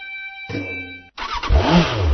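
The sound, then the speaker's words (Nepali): A motorcycle engine revs in an advertisement for Bangladesh-made Runner motorcycles, 80 to 150 cc. Steady tones come first, then a brief gap, then a loud, rough engine roar that continues to the end. “आइपुग्यो बङ्गलादेशमा निर्मित runner मोटरसाइकलहरू Nepali बजारमा आइपुग्यो।”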